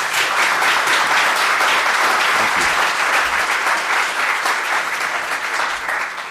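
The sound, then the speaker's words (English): An audience applauds as mayoral candidates for the city of Little Rock are welcomed onto a stage, loud continuous clapping that stays full and dips a little at the very end. “Everyone, please welcome to the stage your candidates for mayor of the city of Little Rock.”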